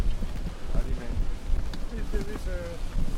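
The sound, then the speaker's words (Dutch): Wind blows steadily across an outdoor camp with a circus tent, a constant broad rushing roar, with faint voices underneath. “Even een beetje proberen uit de wind te staan.”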